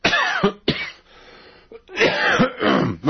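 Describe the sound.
Throat clearing from an itchy throat, heard alone as several loud, rough, raspy bursts separated by short pauses, ending in a longer strained stretch of harsh clearing.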